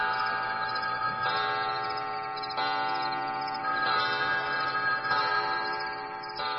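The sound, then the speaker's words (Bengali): A wall clock strikes midnight with a sustained, rich metallic ringing. Fresh strokes come at a regular, unhurried pace over the steady ring. “সঙ্গে সঙ্গে শুনলাম ঘরের দেওয়াল ঘড়িটাও চিৎকার করছে।”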